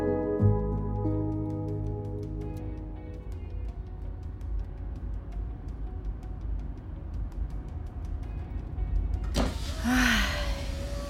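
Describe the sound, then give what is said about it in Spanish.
Steady low engine and road rumble from a car driving through a small hometown, continuous and fairly loud throughout, with a brief brighter burst of noise near the end. “Conduzco a través de mi vieja ciudad natal.”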